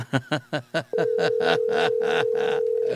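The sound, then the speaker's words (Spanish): Telephone call tone: a steady single-pitched hum that starts about a third of the way in and holds unbroken to the end, preceded by a few short, evenly spaced voiced bursts. “atiéndanos a ver la llamada telefónica. ¿Por qué el temor, el miedo de poder contestar?”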